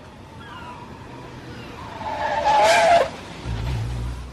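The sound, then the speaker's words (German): Car tyres screech as a car brakes to a stop outside a house in Malibu Beach; a shrill squeal swells loud for about a second before fading, then a low engine rumble follows. “Mit quietschenden Reifen hielt Peter vor dem Haus in Malibu Beach.”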